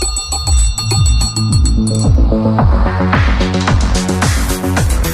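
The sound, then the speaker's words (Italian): A small bell rings rapidly and continuously. Its bright, repeated strikes hold a steady, loud level through the whole clip over a regular, pulsing rhythm. “Ascoltati la campanella.”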